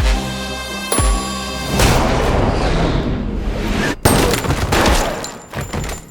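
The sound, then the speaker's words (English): Gunfire in a video game, fired at a man's leg: a few loud, booming shots, each trailing into a sustained rumbling roar. “Fine. I'm just gonna shoot him in the leg.”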